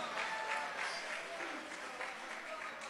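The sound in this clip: A church audience applauds with steady, continuous clapping that stays faint and even throughout, and voices mingle in.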